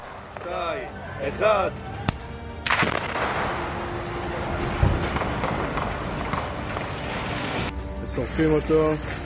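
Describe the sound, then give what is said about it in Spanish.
Explosive charges detonated on command after a countdown: a sudden broad blast gives way to a sustained roaring rumble lasting several seconds, with voices speaking before the blast and again after it fades. “Al comando de operación, detonen después del conteo.”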